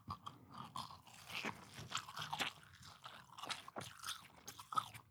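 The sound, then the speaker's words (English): Crunchy chewing and biting of pizza eaten close into the microphone: many soft, irregular crunches and moist mouth sounds, faint overall, with no talk. “All right, I'm going to eat into the microphone.”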